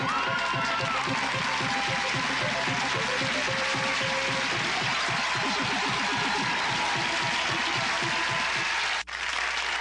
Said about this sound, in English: And they're cheering you